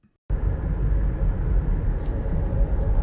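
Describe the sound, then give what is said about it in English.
A car being driven to a retail job, heard from inside: a steady, deep engine-and-road rumble that starts abruptly after a brief silence and holds an even, moderate loudness throughout with no talk. “So I am driving into work right now, and I don't want to be.”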